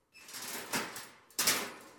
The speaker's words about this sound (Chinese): 牢房门被打开了，浑身行伤的陈泽民抬起沉重的眼皮，一个跛脚医生拿着医药箱进来